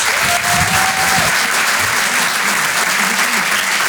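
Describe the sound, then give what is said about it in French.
Audience applause fills a comedy club, a dense, steady wash of clapping that holds at the same loud level from start to finish with crowd noise mixed in. “Faites du bruit pour Adèle Fugazi.”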